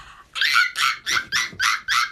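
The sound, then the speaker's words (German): A person imitates a baby monkey with six short, high-pitched squeaky yelps. They come in quick, even succession at moderate loudness, with no other sound. “Das ist ein Babyaffe. Also das erkennt man, dass es ein Affe ist.”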